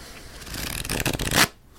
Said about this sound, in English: shuffle it up a little bit. Da-dee-da-dee-da. And we shuffle it up.